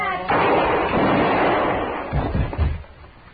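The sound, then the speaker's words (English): Gunfire rings out in a western drama showdown with a marshal. A heavy burst swells into a sustained roar, then a few sharper reports trail off as the noise fades. “Look out, he's got a gun! Drop that gun!”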